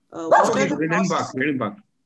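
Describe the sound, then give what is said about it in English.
A dog barks in a few quick, yelping bursts that run close together, mid-pitched and fairly soft, with no other sound around them. “That's my dog barking.”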